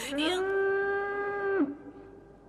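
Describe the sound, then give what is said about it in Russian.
A cow moos while grazing in a forest meadow clearing: one long, loud, steady-pitched moo that drops and breaks off at the end, followed by quiet. “Они выбегают на поляну, на которой пасется корова.”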